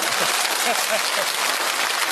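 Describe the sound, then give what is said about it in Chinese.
Dense, steady clapping from an audience at a live stage show. It holds at an even, fairly loud level for the whole clip with no clear peaks. “这掌声多热烈啊！”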